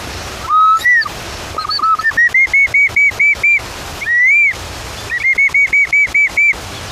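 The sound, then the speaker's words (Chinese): A bamboo instrument whistling in imitation of a bird call: a series of clear, high-pitched piping notes, some sliding upward, others repeated in quick even pulses, loud and alone without speech. “竹子是一个非常好的拿来做自然乐器的一个材料。模拟鸟叫的声音，还有另外一种鸟，”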